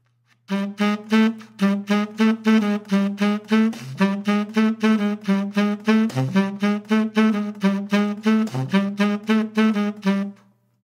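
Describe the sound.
A single-line melody, the counter or introduction line to a tune and built on the 6th or 13th scale degree, plays as many quick, rhythmic notes with a bright, harmonic-rich tone, dipping to a few lower notes along the way.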